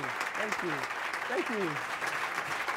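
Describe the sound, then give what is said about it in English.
An audience at a forum gives an extended standing ovation: dense, steady applause that holds at an even level throughout, with a voice speaking over the clapping. “For our radio audience, that was a standing ovation. It was extended.”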